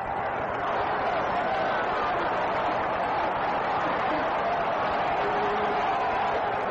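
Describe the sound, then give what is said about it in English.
A big baseball crowd yells in a sustained, dense roar, chanting for a hit between pitches. The loud wash of voices stays steady from start to finish with no clear pauses. “Big crowd yelling, we want a hit, as Freehand steps back in.”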